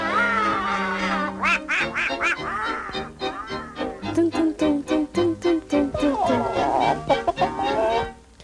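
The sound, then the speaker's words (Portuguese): Donald Duck's quacking cartoon voice from the Disney animations, a performer imitating a duck in raspy, nasal, buzzing syllables. A long drawn-out phrase gives way to a fast string of short, choppy quacks near the middle. “Pato Donald, soa assim desde o primeiro episódio, faz hoje 87 anos.”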